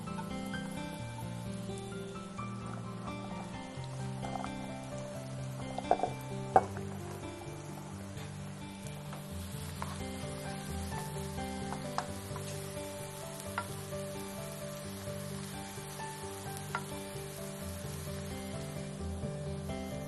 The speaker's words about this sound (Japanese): フライパンに油を温め、キノコとナスを入れて火を通します。